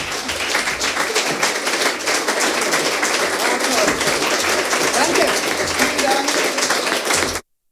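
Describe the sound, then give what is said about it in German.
Audience applause during a standing ovation after a reading at a queer literature festival: dense, continuous clapping that holds at a steady level for about seven seconds before cutting off abruptly. “Ihr hört es im Hintergrund, das Publikum ist begeistert”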